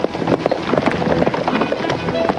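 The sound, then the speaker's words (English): Hooves of a mounted cavalry column crossing an open plain at night: many irregular clip-clops overlapping in a steady, busy patter. “On a rise, Brittles and the bugler wait on their horses, the column passing behind them in silhouette. Sergeant Tyree rides up.”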